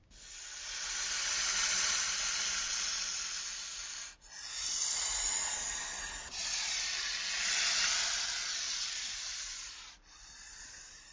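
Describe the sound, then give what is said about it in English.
A snake hissing, a long, loud, breathy hiss that runs almost continuously, broken by a few brief gaps where the sound drops before starting again. “Snakes hiss.”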